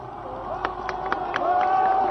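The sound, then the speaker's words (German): Demonstrators at the Brandenburg Gate in Berlin clap and shout. Scattered sharp claps rise out of a steady murmur of crowd voices that grows slightly louder toward the end. “Die Demonstranten klatschen, sie schwenken ihre Hüte. Sie rufen, wir grüßen das freie Berlin.”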